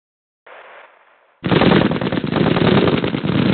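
Gunfire: a short, fainter burst of crackling is followed after a brief gap by heavy, continuous rapid fire that stays loud to the end.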